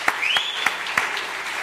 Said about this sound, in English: I have to give yourselves clap.